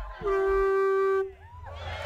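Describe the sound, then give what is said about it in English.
A child blows into a huge conch shell weighing up to five pounds at an annual conch-honking contest, sounding one steady, loud horn-like note for about a second, then a faint wavering whistle over low background noise. “Children make their best effort. They blow into one end of the huge shell that can weigh up to 5 pounds.”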